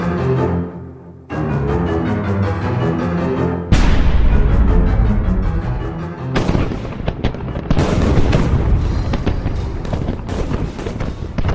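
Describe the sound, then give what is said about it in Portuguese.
Heavy artillery bombardment along a First World War front on the Somme in July 1916: loud, overlapping booms and sharp blasts in a dense, unbroken barrage throughout. “volta das seis e meia da manhã, eclodiu um bombardeio sem paralelo contra toda o fronte, desde o norte do Acre até o sul do Somme.”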